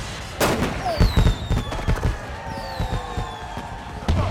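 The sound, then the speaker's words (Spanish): Sharp, loud gunshots are fired at a man in a film scene, with several impulsive cracks and thumps in quick succession and thin, high whistling tones gliding downward. “¡Te atreviste a dispararme! Dije que lo haría.”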